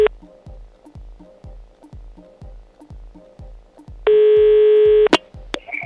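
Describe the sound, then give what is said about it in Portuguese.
A telephone tone rings out as one steady, buzzy beep lasting about a second, followed by a sharp click. A rhythmic thumping beat plays underneath throughout. “Vamos ligar pro Ian?”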